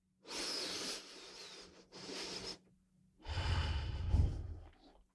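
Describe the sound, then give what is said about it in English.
A single deep breath taken alone with no talk: a long airy inhale broken by one brief pause, then a short gap and a fuller, louder exhale with a breathy low rumble that fades out. “Just take a deep breath.”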